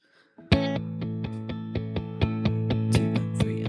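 Tapping on guitar strings plays an intro built on an open sixth string, then G and D chords: many bright, ringing notes struck one after another in an even, steady rhythm, with the chord tones sustaining beneath each new attack.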